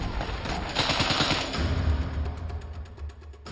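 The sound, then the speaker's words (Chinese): Rapid automatic gunfire from a Browning Automatic Rifle, a light machine gun, firing during the Omaha Beach landing battle. Loud, dense bursts of shots run almost without a break through the whole clip. “这款是勃朗宁自动步枪，也可以算是一种轻机枪，是个野兽。它的主要目的是提供压制火力，”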